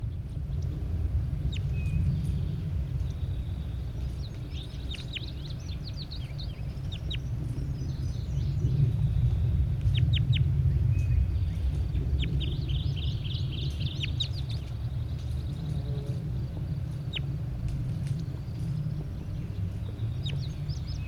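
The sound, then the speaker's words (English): A large bird calls in short bursts of high, harmonic notes, repeating irregularly over a constant low rumble that never lets up. “Start recording bird 81. Definitely a large bird.”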